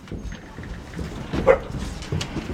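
A strong female dog barks and whimpers while her leash is put on, with a few short yips and barks rising over a steady backdrop of rustling and shuffling noise.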